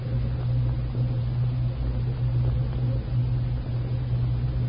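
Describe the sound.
A car engine rumbles steadily as the car drives along on a cold gray afternoon: a continuous low drone with no voices and no breaks.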